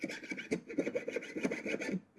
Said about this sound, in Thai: แล้วเราก็ตั้งฉากองศาของตัวเลื่อยฉลุนะคะให้ได้องศาค่ะแล้วเราก็ทําการเลื่อยได้เลยค่ะ